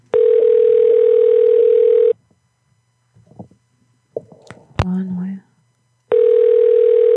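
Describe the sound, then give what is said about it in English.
A telephone dial tone hums steadily and loudly for about two seconds, breaks off for a stretch of short clicks and knocks, then resumes the same unchanging tone at the end. “It's not ringing, but it is dialing.”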